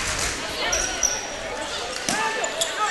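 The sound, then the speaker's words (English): A basketball dribbled on the court during a game, with a crossover stutter dribble out front: a few sharp bounces under continuous commentary. “Wills, little crossover stutter dribble out front.”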